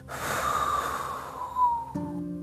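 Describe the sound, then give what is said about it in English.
A long, breathy exhale through the mouth during a guided meditation: a steady airy rush lasting nearly two seconds that tapers off, after which a quiet sustained tone remains. “Now exhaling out through the mouth,”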